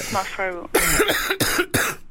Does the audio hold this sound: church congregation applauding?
no